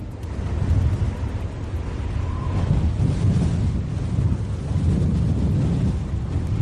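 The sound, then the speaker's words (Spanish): Strong gusty wind during a coastal storm warning in Santander, with gusts reaching 111 km/h. It makes a loud, continuous roar that buffets the microphone, with surges and lulls and no voices. “Es el viento que ha dejado rachas de 111 kilómetros por hora en Santander.”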